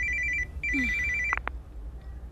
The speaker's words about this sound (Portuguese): Mãe, o seu telefone está a tocar.